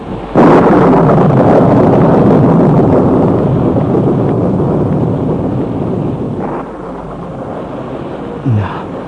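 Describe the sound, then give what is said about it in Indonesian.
A storm with wind and thunder rages outside a small hilltop church. A sharp crack opens a loud, continuous roar of rumbling and gusting wind that holds steady for several seconds, eases slightly, then flares with another brief burst near the end. “Walaupun di luar badai akan mengamuk, aku tidak akan kehujanan.”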